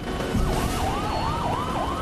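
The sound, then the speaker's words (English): Police squad car sirens wail along a street, a steady rising-and-falling tone cycling several times over a dense traffic rumble. “Squad cars power along the street below.”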